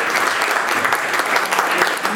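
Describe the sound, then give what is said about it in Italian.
An audience applauds a survivor at the close of a talk, with steady, dense clapping that holds at an even level throughout. “Quindi, se volete concludere questa chiacchierata con un applauso al sopravvissuto”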